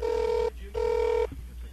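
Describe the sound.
A telephone rings with an incoming call: two steady electronic tone bursts, each about half a second long, separated by a short pause and followed by faint clicks.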